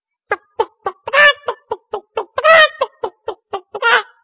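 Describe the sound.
A man imitates a hen clucking with many short, rhythmic voiced clucks broken by a few longer squawks. The sounds are clear and alone.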